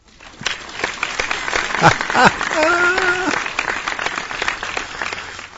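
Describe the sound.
An applause sound effect played in a studio: dense crowd clapping running steadily for several seconds, with a voice heard over it partway through.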